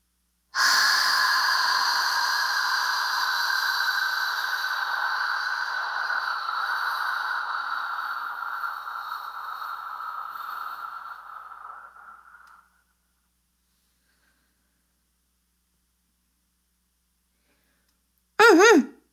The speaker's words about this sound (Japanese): 5秒吸って、1秒止めて、15秒吐く。